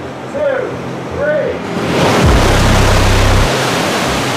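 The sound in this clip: Rushing water floods a film set, bursting in as a loud, steady roar with a deep rumble after brief voices at the start, then holding at full strength to the end.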